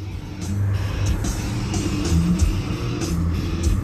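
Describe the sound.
BMW car engine running, heard from inside the car: a steady low rumble with road noise that swells and eases slightly throughout, with no talk.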